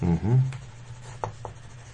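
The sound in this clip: Faint scratching of writing, with a few brief, sharper strokes, following a short burst of voice at the start.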